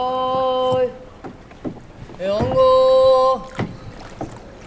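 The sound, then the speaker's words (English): A boat glides through narrow city canals with soft water and hull noise, while a voice calls out twice in long, held, sung tones. “We moved away from the tourist centers of the city and into these smaller canals.”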